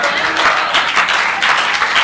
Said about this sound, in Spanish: Aplaude con ganas.